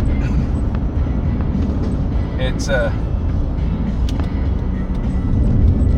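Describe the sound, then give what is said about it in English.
Steady low road rumble fills a car interior while driving home late at night, a continuous dense drone with no clear breaks. “So I'm driving home right now”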